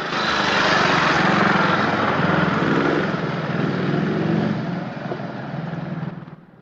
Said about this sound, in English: A soldier on a motorbike escorts a black Rolls-Royce to headquarters.